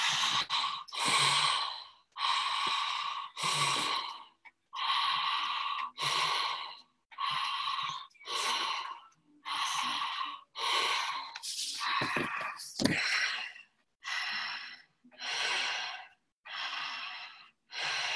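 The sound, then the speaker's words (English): Deep open-mouthed breathing in a guided breathing exercise: many loud, forceful inhales and exhales at a steady, fairly quick rhythm, each breath a full rushing gust with short pauses between. “Keep the depth and the speed of the breath.”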